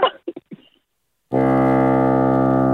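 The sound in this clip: One sustained bassoon note, steady and rich in harmonics, starts abruptly after a few brief soft sounds and a short pause and holds evenly for over a second.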